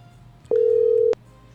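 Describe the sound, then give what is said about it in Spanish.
Telephone tone as an outgoing call is placed: a single steady mid-pitched beep lasting just over half a second, opened and closed by soft clicks, with faint line hiss around it. “Ahí estamos entrando en llamadita, le estamos timbrando.”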